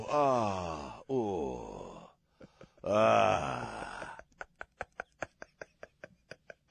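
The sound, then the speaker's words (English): A person imitates their own groaning while having their neck shaved: three drawn-out, wavering vocal moans, followed by a steady run of many sharp, evenly spaced clicks. “I was groaning. I was making weird noises. Oh, she's shaving my neck, and I'm like,”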